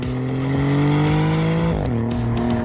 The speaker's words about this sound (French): C'est vrai qu'il sonne bien ce V6.